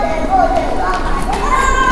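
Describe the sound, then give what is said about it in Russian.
Children running loose around a store's sales floor, their high-pitched young voices rising and calling out over a steady, busy background murmur with mixed talk. “А вот как раз и дети свободно бегают по торговому залу”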